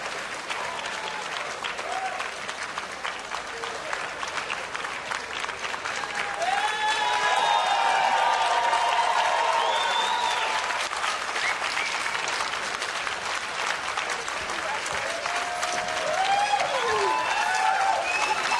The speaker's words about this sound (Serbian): Laura Prouveau, i vidimo reakciju vrlo pozitivnu publike